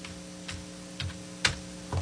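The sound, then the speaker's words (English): Typing on a computer keyboard, four faint, sparse keystrokes spaced roughly evenly apart over a steady low hum. “Because I can't type very well with one hand.”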